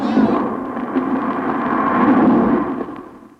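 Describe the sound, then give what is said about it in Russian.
The walls of Jericho collapse in a deep, sustained rumbling crash, a loud continuous roar of falling masonry lasting about three seconds before it fades away. “Падают стены Иерихона! Но нам не будет никакого вреда! Спасите!”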